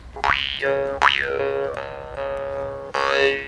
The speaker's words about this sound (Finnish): Munniharppua kutsutaan myös suupeliksi, mörinäraudaksi, märistysraudaksi ja turpajurraksi.